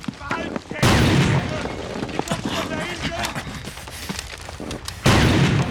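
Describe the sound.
Grenade explosions and gunfire in a video game: a loud, booming burst near the start and another near the end, with scattered sharp shots and rattling clatter in between.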